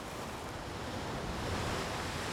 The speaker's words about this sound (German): Die Wellen bewegen sich weiter und weiter auf den Strand zu.